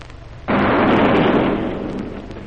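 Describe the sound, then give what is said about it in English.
A single cannon shot fires as a sailing ship sets sail: a sudden loud boom that swells into a broad, rumbling roar and slowly fades. “With that one parting shot, the Griffin set sail for Niagara.”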